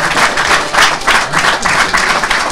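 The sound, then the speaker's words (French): Loud audience applause for a speaker at the close of a talk: dense, vigorous clapping with a lively pulsing texture, sustained throughout. “Il est 20h35, donc on va t'applaudir”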